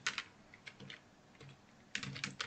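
Typing on a computer keyboard: faint, quick key clicks in short bursts with a brief lull in the middle.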